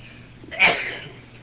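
A single sneeze rings out during a religious lecture, a short breathy burst over faint background hum.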